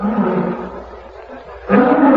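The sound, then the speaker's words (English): Lion men roar in an arena: a loud, growling roar fades away, then another deep roar surges in strongly near the end. “Here comes Ugrit, king of the lion men. Dragon men are frightened by the lions.”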